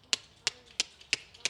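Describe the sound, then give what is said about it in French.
A beatbox snare drum made by clicking the tongue against the side of the mouth, as when calling an animal. Five sharp, bright clicks sound alone at an even, steady pace. “c'est la caisse claire sur la batterie. La caisse claire, il y a plein de manières de l'imiter en beatbox.”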